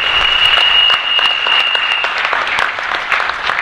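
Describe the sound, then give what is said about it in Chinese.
Audience applause at a talk about fasting: loud, dense, continuous clapping, with a thin high steady tone running through the first two seconds before the clapping continues alone. “掌声鼓励一下，好不好？掌声鼓励一下。”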